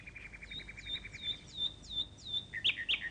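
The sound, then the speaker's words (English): Nightingales singing in the treetops: a faint run of repeated high, downward-sliding chirps in a steady rhythm, ending with a couple of brighter, louder calls. “All around them in the tops of the trees, the nightingales were singing.”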